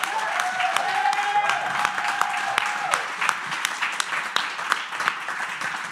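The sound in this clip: Audience applause greeting a guest at a live show: dense, continuous clapping from a crowd that stays loud and even for several seconds.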